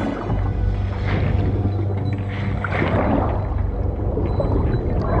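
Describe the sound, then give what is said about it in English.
Water churns and sloshes around a boat as a great white shark thrashes beside it. A dense, steady rushing wash runs alongside a low rumble throughout, with no distinct breaks. “The shark's tail thumps the boat. Water churns around the shark.”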